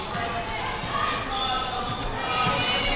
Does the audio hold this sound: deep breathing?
no